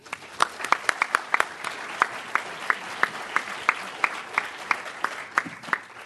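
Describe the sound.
An audience at an evening talk applauds a speaker after an introduction, with sharp individual claps standing out over a thin wash of clapping at a fairly even pace.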